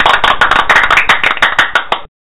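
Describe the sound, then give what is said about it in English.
Clapping for a round of applause: many sharp, quick claps in a fast uneven run, cutting off abruptly at the end. “Give them a round of applause.”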